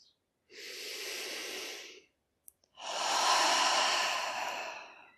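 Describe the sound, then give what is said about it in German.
A deep breath in and out during a guided standing relaxation exercise: a long, soft airy inhale, a short pause, then a longer and slightly louder exhale. “Atme vielleicht nochmal tief ein und aus.”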